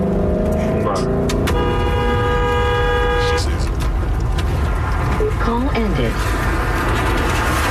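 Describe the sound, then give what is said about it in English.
Car engine and road noise from a BMW driven by a 13-year-old girl who is filming, loud and steady throughout, with a sustained horn-like tone in the middle. “And you hear her accelerate, and she gets pissed.”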